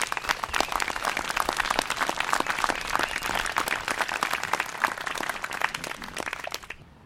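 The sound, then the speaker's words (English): Crowd applause closes a presentation at a bicycle project event: dense, energetic clapping from many hands holds steady for several seconds, then fades out quickly at the end. “So how about everybody one last round of applause for this whole thing.”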